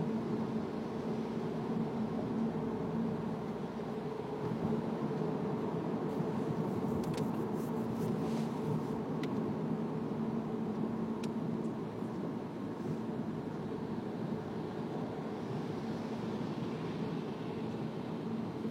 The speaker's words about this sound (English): All right, well, now I'm driving away from Super Bowl City.